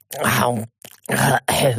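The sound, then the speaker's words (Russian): A man coughs and clears his throat in three short, rough, voiced bursts, with a faint, brief sound between the first and second. “Будьте здоровы!» Улыбнулся я, несколько смущенно кашлянувшему магу”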